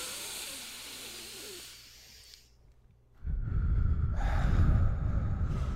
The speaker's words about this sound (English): Let's do some deep breaths.